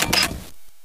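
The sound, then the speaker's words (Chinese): A camera shutter takes a photo of a pretty house with carpentry inside, in rural Guizhou. A short rapid flurry of mechanical clicking lasts about half a second, then silence. “来，我拍张照片呢”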